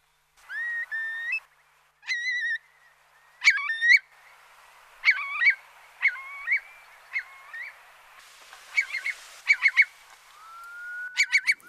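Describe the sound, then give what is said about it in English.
A curlew, a long-legged ground-nesting bird with a down-curved beak, calls in a series of loud, clear, rising whistled notes broken by short gaps, with quicker repeated phrases near the end and no voices. “that's the sound of the curlew. But this bird with long legs and distinctive curved back beak, of course, is rarely seen nowadays”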